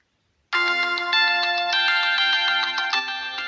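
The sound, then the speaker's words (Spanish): A phone ringtone for an incoming call starts abruptly after a brief silence and plays on steadily, a bright electronic melodic tone with small repeated pulses, sounding alone and fairly loud. “Discúlpame, por favor, tengo una llamada de un paciente que ahorita me está escribiendo.”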